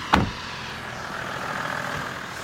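A Range Rover engine runs with a faint, steady hum. A brief thump comes at the start, and the low, even motor sound continues throughout.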